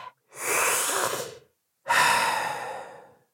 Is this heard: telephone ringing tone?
no

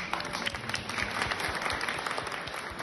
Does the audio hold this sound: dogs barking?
no

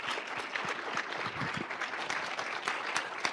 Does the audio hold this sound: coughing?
no

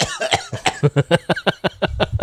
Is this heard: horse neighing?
no

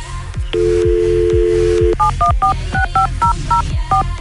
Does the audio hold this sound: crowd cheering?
no

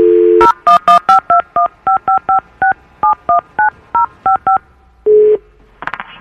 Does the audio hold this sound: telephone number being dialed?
yes

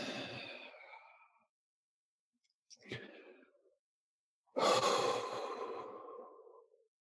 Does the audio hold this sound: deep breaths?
yes

